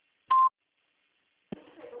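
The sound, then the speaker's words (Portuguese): A single voicemail beep sounds: one short, loud, steady electronic tone lasting about a fifth of a second, followed by a second of silence before a voice begins speaking. “Favor deixar o seu recado após o bip.”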